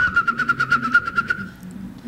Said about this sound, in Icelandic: Þetta var spóin.